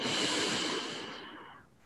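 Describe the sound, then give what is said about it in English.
A deep inhaling breath taken during a guided breathing exercise: a steady, airy rush of air that holds strong, then tapers off and fades over about two seconds, heard alone. “we're going to take three nice deep breaths together. And on the exhale, you're going to exhale as though you're exhaling through a straw. Inhaling now.”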